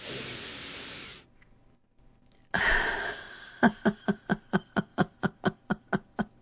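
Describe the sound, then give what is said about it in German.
A deep, audible inhaling breath rushes in, followed by a long run of many short, rhythmic breathy bursts like laughter. “Noch einmal einatmen.”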